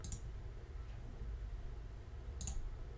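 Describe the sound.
Two sharp computer mouse clicks on a web page link, one at the very start and one near the end, separated by a quiet stretch.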